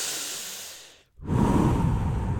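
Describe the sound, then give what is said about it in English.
Deep breathing during a breathwork exercise: a long airy breath fades out, a brief silent pause follows, then a stronger, louder rush of breath continues steadily to the end. “Back to my Wim Hof breathing in.”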